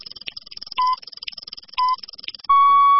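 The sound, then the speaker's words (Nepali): Time-check beeps on an FM radio station marking six in the morning: two short pips, then a longer, slightly higher steady tone, all over a fast, regular ticking pattern. “Shukla Gandaki time check”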